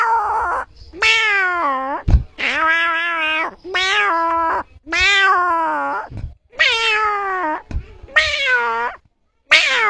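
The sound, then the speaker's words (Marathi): A person imitates a small kitten's meow with a long string of high, whining meows, each drawn out with slight bends in pitch and separated by brief pauses, loud and alone. “तुम्हाला सगळ्यात आवडणारा आवाज कुठला? आवाज मांजराचा.”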